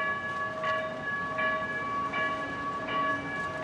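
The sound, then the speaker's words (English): A light rail train arrives at a station in Culver City on the west side of Los Angeles, with a steady tonal whine. Regular rhythmic clacks of wheels on rail run through the whole clip. “That is the sound of change. Light rail has come to the west side of Los Angeles.”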